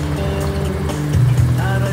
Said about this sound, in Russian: Жигули едут по пыльной дороге.